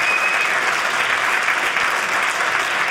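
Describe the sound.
Audience applause at a stand-up comedy show: dense, steady clapping from a crowd that fills the whole stretch at an even, loud level, with no single voice standing out.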